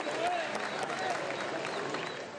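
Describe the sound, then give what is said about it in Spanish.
A crowd applauds at a public event in Venezuela. The clapping stays steady and full for the whole short stretch, with voices mixed in. “Bueno, un aplauso pues para la alegría, un aplauso para la esperanza, para la vida.”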